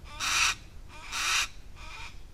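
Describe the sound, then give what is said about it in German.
Birds in an aviary give harsh, raspy calls: three drawn-out, hoarse cries with pauses between them, the third noticeably fainter than the first two. “Die entspannten Vögel dösen im Halbschatten, rufen ab und an über den Platz und scheinen mit sich und der Welt zufrieden.”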